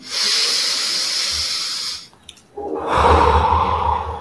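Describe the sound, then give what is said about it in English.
A long, steady breath drawn in through the nose during a guided breathing exercise, then a short pause, then a fuller, louder breath pushed out through the mouth. The airy rush continues evenly, with no voices. “Now, inhale through your nose and exhale through your mouth.”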